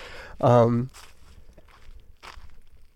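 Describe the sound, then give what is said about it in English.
Footsteps crunch on a gravel road after a short voiced sound, with several steady, gritty steps at a moderate pace and moderate level. “Okay, now I'm fully on the road, not in the forest at all, so now you'll hear gravel when I walk.”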